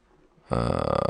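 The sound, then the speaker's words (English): A single loud, rough burp from someone drinking water bursts out after a quiet moment and rumbles on for over half a second. “Because I drink a lot of water. Water doesn't make you burp. Oh, it did just now.”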